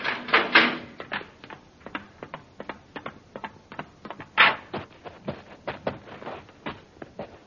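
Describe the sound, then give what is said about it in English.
The outer airlock hatch of a spaceship opening, heard as a long run of many rapid mechanical clicks and clacks in an uneven, ratcheting rhythm, with a few louder knocks among them. “All right, open the outer hatch.”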